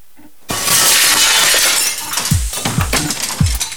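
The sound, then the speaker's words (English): A glass pane in a house's back door is smashed with a sudden loud shatter, followed by crackling, tinkling fragments. A few dull knocks sound as the glass settles. “Ray smashes the door pane.”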